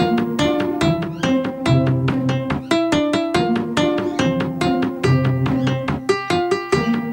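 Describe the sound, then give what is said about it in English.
Building-mode music from The Sims video game, bright bouncy instrumental with steady rhythmic plucked and keyed notes repeating in a lively pattern, loud and continuous with no talking. “Sounds like this, actually. I do have Sims music. Here we go.”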